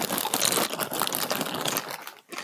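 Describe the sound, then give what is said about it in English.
Crisp crunching of Casa Sanchez tortilla chips, a steady run of crinkly bites and chewing crackles that stays fairly loud throughout, then breaks off briefly near the end before one last crunch. “I'm enjoying some chips up here in San Jose, and it sounds like you are enjoying some chips down there in”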